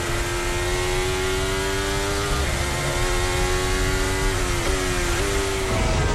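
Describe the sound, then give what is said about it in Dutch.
Onboard engine sound of a Ferrari Formula 1 car at the Belgian Grand Prix, a loud, sustained high engine whine that holds a steady pitch with a few brief dips, heard alone without voices. “in de sandwich van de Ferraris. Onboordgeluid van Lewis Hamilton.”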